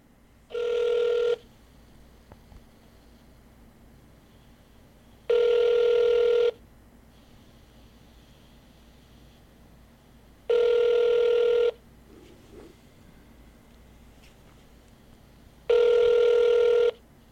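A phone line rings while calling a congressman's office in Washington, D.C.: four steady ring tones, each about a second long, evenly spaced roughly five seconds apart over a quiet line.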